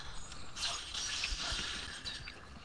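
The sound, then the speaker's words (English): Mechanical whirring and ratcheting of a moving elevator in a video game, a faint, steady grinding drone that carries on without a break and without talk. “Another elevator.”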